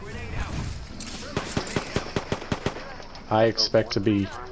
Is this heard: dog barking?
no

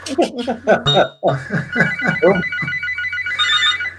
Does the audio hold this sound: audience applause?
no

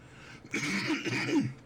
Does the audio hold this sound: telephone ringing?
no

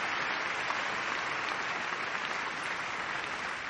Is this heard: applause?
yes

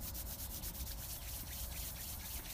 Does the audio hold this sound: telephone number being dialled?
no

